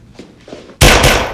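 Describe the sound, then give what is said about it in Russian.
Pistol fire bursts out suddenly, a loud, sharp blast that rings on and slowly decays, coming after a few faint thuds in the quiet before it. “Кадош падает на пол от выстрелов Фараза.”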